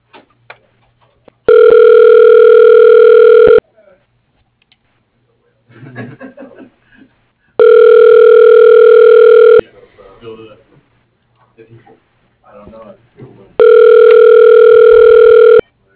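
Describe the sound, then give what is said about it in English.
Ringback tones play on an office phone line while a call is transferred to an extension's voicemail: three long, steady, buzzy tone bursts about two seconds each, with voices talking and brief chuckling in the gaps between them. “I can put you through to his voicemail if you like.”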